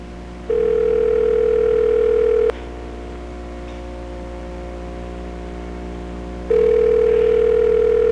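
An unanswered telephone call rings out as two long ringback tones. Each is a steady mid-pitched hum of about two seconds, separated by a long silent gap over faint line hiss.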